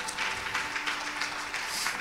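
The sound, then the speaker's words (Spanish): Faint, steady applause from the audience at a church service, a soft rustling wash of clapping over a low, constant hum. “Pues dale otro aplauso al Señor con todo el corazón, porque Cristo vive y reina para siempre.”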